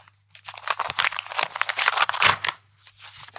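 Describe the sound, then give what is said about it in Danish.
An envelope is torn open with crinkly paper tearing and rustling that comes in irregular bursts of varying loudness for a few seconds, then stops briefly at the end. “Det var ikke nogen smart måde at åbne en kuvert på.”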